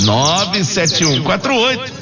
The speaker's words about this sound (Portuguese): E eu quero saber que passarinho é esse que está cantando aí, ó. Que passarinho é esse?